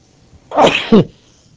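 A single loud sneeze, a sharp breathy burst ending in a short voiced snap, stands alone against a quiet background.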